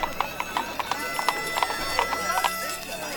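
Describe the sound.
Hooves clip-clop in a brisk, steady rhythm as a pair of donkeys pull a cart, many sharp, evenly spaced knocks running throughout, with a short whinny-like call mixed in.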